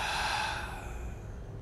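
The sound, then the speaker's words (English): A deep, audible breath during a guided meditation, a steady airy rush that gradually fades, with no talk. “We begin by taking 3 deep breaths in through the nose, filling the body completely. And out through the mouth.”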